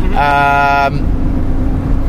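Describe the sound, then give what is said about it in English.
A car driven on a road in Katanga, southeast Congo: a loud, steady low rumble of engine and road noise runs throughout, with a brief bright tonal whine over it in the first second. “Wait a minute, I have to concentrate on driving.”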